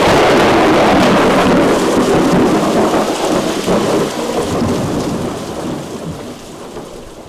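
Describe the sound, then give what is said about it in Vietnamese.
Thunder rolls over heavy, steady rain as lightning strikes suddenly, a dense, loud, unbroken roar that holds for several seconds and then slowly fades toward the end. “Đột nhiên một tia sét xé toạc thiên không, sấm sét đùng đùng khiến ai nấy đều giật mình.”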